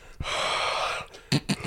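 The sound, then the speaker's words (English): A voice imitates someone breathing onto glasses to clean them: one long, airy, breathy exhale, followed by a couple of shorter puffs of breath. “I find that frustrating when people clean their glasses and do the breath noise.”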